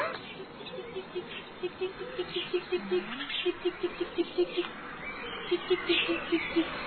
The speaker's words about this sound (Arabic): انتبه الثعلب لصغار العصفورة وهم يزقزقون كثيرا.